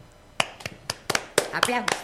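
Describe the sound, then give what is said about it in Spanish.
Scattered hand claps during a choir's 59th anniversary celebration: a few sharp, separate claps spaced irregularly, heard among people talking. “¡Aplausos!”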